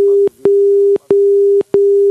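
A phone busy tone after hanging up: a steady mid-pitched beep repeating in an even on-off rhythm, about four pulses, alone and fairly loud.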